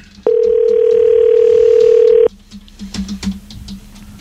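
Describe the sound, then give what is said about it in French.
A steady, loud telephone dial tone hums for about two seconds while a call is about to be dialed, then cuts off abruptly. A few faint keypad beeps and clicks follow over low background noise. “Alors, on compose tout de suite.”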